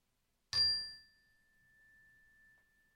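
A single bell strike marks the end of a meditation exercise, a sharp metallic ding that leaves a clear, high tone ringing and fading slowly into quiet.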